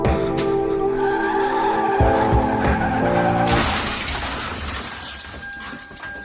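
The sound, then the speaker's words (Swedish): Tires skid and squeal as a Mini Cooper loses grip on an icy, patchy road. A sustained tonal screech rides over a rumbling drone, then a loud, harsh noisy burst hits midway and slowly fades. “Bilen går inte att kontrollera. Däcken fattar inte fäste om vägen och ratten lyder inte händerna som så hårt håller i den.”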